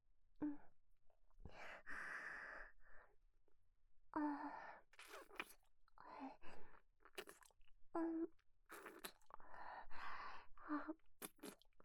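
Chewing the last mouthful of cooked rice: many soft, moist mouth and crunching sounds in irregular bursts with brief pauses, fairly faint and without talking.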